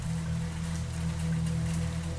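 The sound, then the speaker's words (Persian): Loud rain pours down in a steady, dense hiss with a low rumble beneath, unbroken throughout and with no voices. “به خاطر بارون تمام بوها با هم اومده سمتم و با هم قاطی شده. صدای بارونم خیلی بلنده.”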